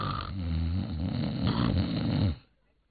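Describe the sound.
A storyteller's voice imitates a man snoring, producing a loud, rasping, throaty snore that rumbles on for over two seconds and then cuts off abruptly into silence.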